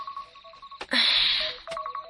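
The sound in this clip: An electronic mobile phone alarm sounds from a charging handset, with short, mid-pitched beeping tones, then a loud, bright burst of tone, followed by more beeps.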